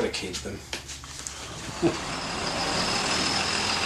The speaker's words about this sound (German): Mit dem Bus fahre ich knapp 250 Kilometer weiter nach Süden, nach Rotorua.